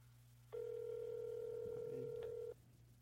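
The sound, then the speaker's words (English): A phone ringback tone on an outgoing call: one steady, unbroken mid-pitched tone lasting about two seconds, starting and stopping cleanly over a faint low hum. “answer your fucking phone.”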